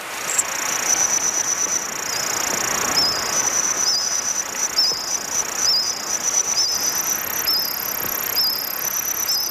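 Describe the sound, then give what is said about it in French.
Reconstructed soundscape of Jurassic forest insects: high, shrill cricket-like chirps repeat in rapid bursts over a steady high whine and soft background hiss, with no voices. “Des scientifiques aussi l'ont fait. Et ils sont allés même jusqu'à reconstituer le paysage sonore d'une forêt de cette époque. Ça donne à peu près ceci.”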